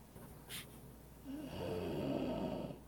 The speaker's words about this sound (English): And he breathes in heavy.